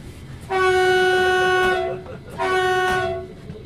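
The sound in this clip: A regional passenger train on a reactivated rail line sounds two sustained horn blasts, the first longer than the second, over a low rumbling background.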